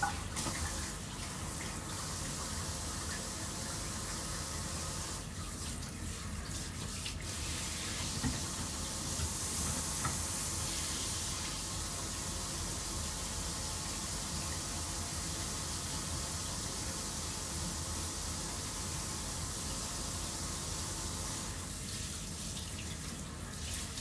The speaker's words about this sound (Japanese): 洗面台で洗ってる。